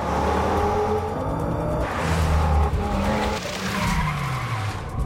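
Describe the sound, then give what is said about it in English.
A car reverses up cobbles on a quayside, its engine revving hard as the tires skid and squeal in a loud, continuous roar that shifts in pitch over several seconds. “He gets behind the wheel and reverses up the cobbles.”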